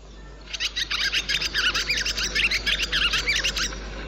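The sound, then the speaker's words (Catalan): Barn swallows calling, more than one bird: a rapid run of many bright chirps and twitters lasting about three seconds over a faint steady low hum. “escolteu, aquest és el so de l'oreneta comuna.”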